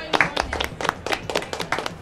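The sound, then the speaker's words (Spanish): A small group of people claps in applause, many quick, uneven hand claps in a loose, irregular rhythm, moderately loud throughout with no clear beat. “Un aplauso para Marco.”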